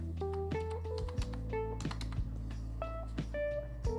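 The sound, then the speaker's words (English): Keystrokes on a computer keyboard as a short word is typed into a Windows 11 search: a few crisp, separate clicks over steady background tones. “We type in control.”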